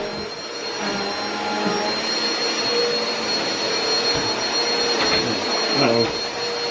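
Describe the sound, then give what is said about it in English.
A vacuum cleaner working on the stairs, a steady loud whine with a broad airy roar and a few bumps as it moves. “Vacuuming the stairs.”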